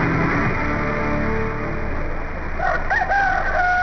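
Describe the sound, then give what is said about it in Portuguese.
A rooster crowing at dawn gives one bright, wavering cock-a-doodle-doo near the end, rising and then falling in pitch, after a stretch of low, steady background rumble. “Galo que é bom, começa a cantar de madrugada.”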